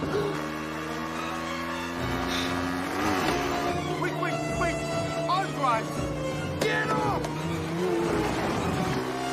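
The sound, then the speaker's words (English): A motorbike engine races along a bumpy dirt track through woods with a truck chasing close behind; the whining engine tone shifts in pitch as voices are heard over it. “The children whiz through the woods on the motorbike, with the clown truck closing in on them fast.”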